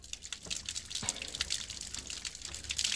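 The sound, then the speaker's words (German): Water running from a tap into a washbasin, a steady, fairly quiet splashing rush scattered with small droplet clicks throughout. “Was machen Sie da? Ich fülle dieses Waschbecken mit Wasser.”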